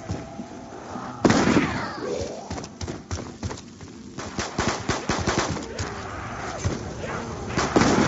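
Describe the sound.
Many sharp, punchy shotgun blasts fired in a video game, coming in irregular bursts and rapid clusters with short gaps between them, each shot an abrupt loud crack.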